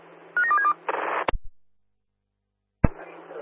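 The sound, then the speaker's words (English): Telephone keypad tones as a number is dialed: a quick run of a few short, bright beeps, followed by bursts of static and sharp clicks, then a short silence before more static returns. “Do you want to give me a call, mate? Dialing now.”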